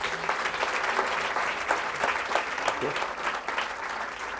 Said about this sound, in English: So can I ask everybody just to put your hands together and welcome Professor Brian Boyd.